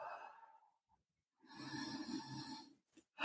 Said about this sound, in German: Dann nehmen wir zwei, drei tiefe Atemzüge